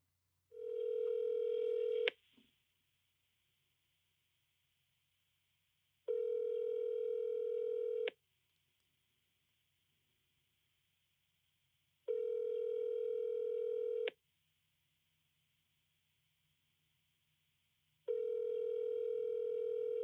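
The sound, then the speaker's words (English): Ringback tone of an outgoing phone call to the speaker's dad: four steady, evenly spaced buzzing rings of about two seconds each, separated by long silent gaps. “I'm giving my dad a call right now.”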